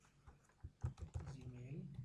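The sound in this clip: Typing on a computer keyboard while entering a web address to set up an email account: faint, irregular key clicks and taps, a few spaced and then quicker, with a voice briefly heard near the end.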